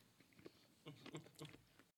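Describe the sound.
People chew pieces of fruit while tasting it, with a few soft, moist bites and crunches, quiet and intermittent.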